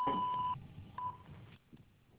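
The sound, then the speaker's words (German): A voicemail beep on a German mobile mailbox: a faint, steady tone lasting about half a second, followed by a second, shorter beep of the same pitch, then quiet line hiss. “Bitte sprechen Sie Ihre Nachricht nach dem Ton.”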